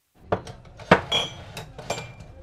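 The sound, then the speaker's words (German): Second-hand German cups and plates clink and knock as they are arranged in a small shop near Nairobi. A few sharp ceramic taps come at irregular intervals, fairly faint, with brief ringing after each. “arrangiert die Tassen und Teller in ihrem kleinen Laden”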